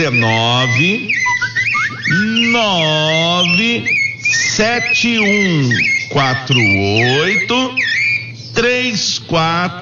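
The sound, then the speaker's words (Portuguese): A bird vocalizes with loud, squawky, harmonic calls that swoop up and down in many rapid notes, running almost without pause for about ten seconds. “E eu quero saber que passarinho bonito é esse aí, ó.”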